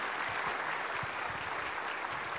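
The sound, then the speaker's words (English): Audience applause thanks a presenter at an event where art and science meet, a dense, even wash of many hands clapping that holds steady and fairly quiet throughout. “Everybody else, would you give her one more round of applause?”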